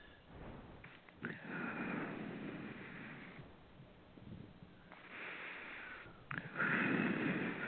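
Long, slow breaths through the mouth, each a soft airy rush lasting a few seconds, repeating in a calm, steady in-and-out rhythm.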